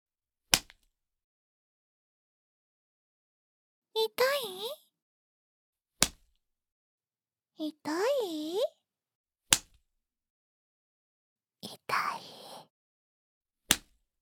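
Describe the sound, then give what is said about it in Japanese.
Sharp cracks of a riding whip strike one at a time at spaced intervals, each a brief snap. Short vocal cries fill the gaps between strokes, and silence surrounds each one. “このムチはお父様が乗馬用に飼ってくださったものなの。いい音がするでしょう。”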